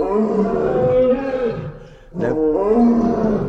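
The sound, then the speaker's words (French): A lion and a tiger roar together: deep, loud, harmonic roaring in two long stretches split by a brief gap midway. “Nous avons en même temps lion et tigre là. C'est un petit concert.”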